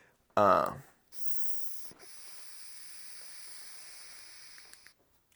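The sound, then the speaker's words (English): Steady hiss from an Afternoon Delight cannabis vaporizer with gold trim and a blue handle, running evenly for about four seconds after a brief, louder burst of sound at the start. “Yeah, this Afternoon Delight vaporizer is amazing. It's like all gold trim and it's a blue handle.”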